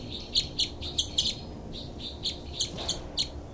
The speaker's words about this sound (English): Both birds.